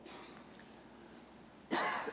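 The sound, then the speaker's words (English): A single short cough from a person giving a talk on scripture: one sudden, breathy burst rising out of near silence near the end, with a faint, smaller noise earlier on. “Sorry, I don't know why I'm coughing.”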